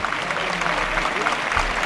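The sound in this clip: A bullring crowd applauds bullfighter Borja Jiménez during a bullfight with the fifth bull, a steady, even wash of clapping that holds at one level for the whole stretch.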